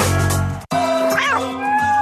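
A pet cat meows once in a short call whose pitch rises and then falls, heard clearly over a steady tonal background.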